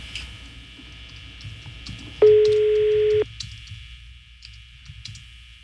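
A single steady, low telephone tone sounds for about one second while a number is being dialed, over a constant high electronic whine and faint scattered clicks.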